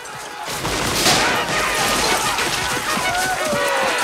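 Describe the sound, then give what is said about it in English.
Heavy gunfire fills a Civil War battle as retreating Confederates run under a hail of shots. Dense, crackling volleys of sharp reports pile up continuously over a loud, noisy din. “Now outnumbered, the Confederates run, whilst under a hail of gunfire.”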